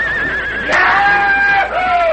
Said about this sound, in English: Then the two cowhands leaped aside, and the stallion went into action.